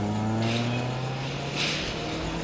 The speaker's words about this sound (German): Ein Wagen bog in die Straße ein. Brunetti stellte sich hinter einen geparkten Kombi. Das Auto fuhr vorbei.